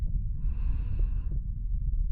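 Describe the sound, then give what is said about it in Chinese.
Hot breathing close to the microphone: one long, breathy exhale with soft hiss, carried over a steady, heavy low rumble of air hitting the mic, with no talk. “感受到我炙热的呼吸。”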